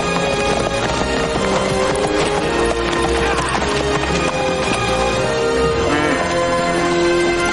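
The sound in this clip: Horse hooves clip-clop in the 1994 western film Wyatt Earp, a continuous, dense patter of hoofbeats that keeps a steady loudness.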